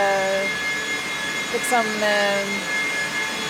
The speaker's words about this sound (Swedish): Servrarnas egna fläktar, det är de som låter.